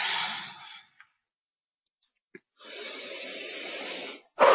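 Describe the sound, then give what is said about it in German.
Slow, deliberate breathing in and out during a guided breathing exercise. A long airy breath is followed by a quiet pause with a few faint clicks, then a second long breath and the start of another. “Und atme ganz bewusst durch. Ich atme ein, ich atme aus”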